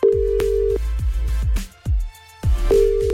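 Telephone call tones for a called person who cannot be reached: two long, steady, low-pitched tones separated by a gap, with rhythmic low thumps running underneath.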